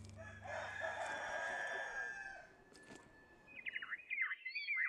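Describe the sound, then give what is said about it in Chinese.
A rooster crows once among a flock of chickens under walnut trees. The long, drawn-out call is quiet, and high, quick bird chirps follow it. “周区县曲马乡程马村的达嘎坪，茂密的核桃树下，不仅有随地走动的鸡群，还有飘出的歌声和琴声。”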